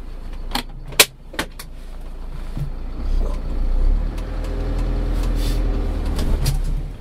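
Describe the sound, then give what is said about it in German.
A community bus heading toward Glashütte sets off: a few sharp clicks and knocks come first, then the engine rumble swells and settles into a steady, low driving drone. “Also, jetzt fahren wir erstmal hier in eine Richtung, die auch in eurem Podcast drin vorkam, nämlich in Richtung Glashütte.”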